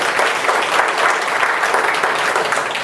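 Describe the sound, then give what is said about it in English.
Applause from a church audience: dense, steady clapping from many hands, loud and even throughout, with no break or clear voices. “give the Lord a hand of applause, everybody”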